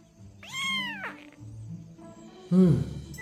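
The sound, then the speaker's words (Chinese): A person imitates a kitten's meow: two high, thin, cat-like cries, the first a drawn-out rising-and-falling mew, the second shorter and more strained, over a faint low background. “小奶猫。 紫影和折影嘴角一抽，这猫被踩尾巴了。之后，黑影在辽国馆驿院墙上学着各个品种的猫叫了一轮，”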